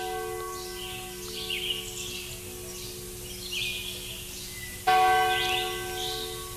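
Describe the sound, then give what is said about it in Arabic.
Church bells ring at a small church standing alone among mountains at about 2170 metres, giving a sustained, resonant ringing hum that a fresh, louder strike renews near the end. “تشهد أجراس كبيرة لها أصوات عالية”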